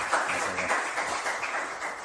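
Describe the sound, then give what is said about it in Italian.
Applause from an audience at an Italian-language talk event, a dense, steady patter of many hands that holds at moderate loudness for the whole stretch. “Va bene, l'applauso.”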